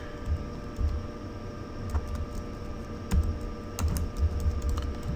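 Typing PowerShell code on a computer keyboard: scattered clicks and soft thuds at an uneven pace, some grouped in quick bursts, others separated by short pauses.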